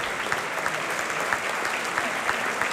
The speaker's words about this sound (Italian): che prendono gli applausi del pubblico in sala